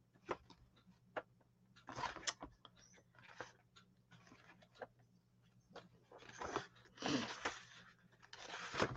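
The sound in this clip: Cards being searched through in a deck, producing many short crisp rustles, flicks and snaps at an irregular rhythm, growing louder and denser toward the end.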